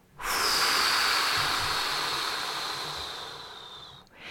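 A long, steady exhale through the mouth during a guided breathing exercise, a breathy rush lasting almost four seconds that slowly thins toward its end before stopping abruptly.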